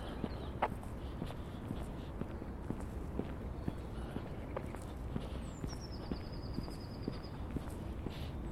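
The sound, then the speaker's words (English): Footsteps of a person walking through a cemetery on a cold, sunny day, a steady run of many soft treads going on without a break for the whole stretch. “I'm doing my usual semi-regular cemetery walk.”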